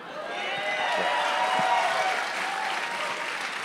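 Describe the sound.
A comedy club audience applauding, with dense, steady clapping that swells slightly in the middle and holds at an even level, with a few faint cheers mixed in.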